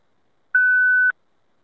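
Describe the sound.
A voicemail beep: one steady, clear, mid-high tone lasting about half a second, alone after a short silence and followed by silence.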